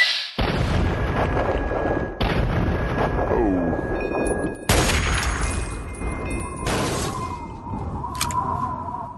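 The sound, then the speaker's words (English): Sniper rifle shots ring out in a video game. Several heavy, booming blasts hit with sudden sharp onsets, each followed by a long, rumbling decay, with no talk. “Got him down to one health bar with the two bat shots, and then took him out with a third free fire.”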